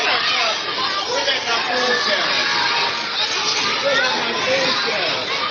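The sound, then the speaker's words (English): Dense babble of many children talking at once in a school lunchroom at mealtime, a loud, steady wash of overlapping young voices that holds without a break from start to finish. “So all that noise is the kids.”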